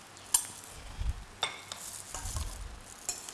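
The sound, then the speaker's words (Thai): Straw mushrooms tossed into a hot pan and stirred, giving a steady crackling sizzle broken by scraping stir strokes and a few sharp metallic clinks of utensil against pan, with no talking. “แล้วก็ใส่เห็ดฟางนะคะใส่ลงไปเลย”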